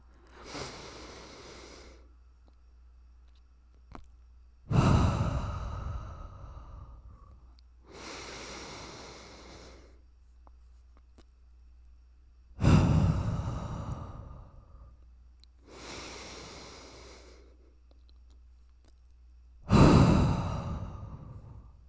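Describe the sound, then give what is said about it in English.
Deep breaths drawn in and let out right against the microphone, six breath sounds in a slow, steady rhythm, with the louder rushing breaths alternating with softer ones and quiet gaps between them. “so you're gonna hear me breathing in. So if you don't like ASMR, maybe skip ahead like a minute, but we're just gonna take a deep breath”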